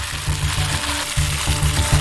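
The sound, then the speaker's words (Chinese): Sichuan peppercorns and chili peppers sizzle in hot oil with a steady, crackling hiss. Low, throbbing pulses run underneath the sizzle in an uneven rhythm. “起锅倒油，烧热后先下麻椒停留3秒，后下辣椒”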